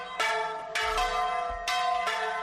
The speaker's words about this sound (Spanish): sabemos, por ejemplo, de la importancia que siempre han tenido las campanas para avisar a los vecinos de todo lo que pasa. Fuegos, muertes, fiestas... Ahí están, ¿eh?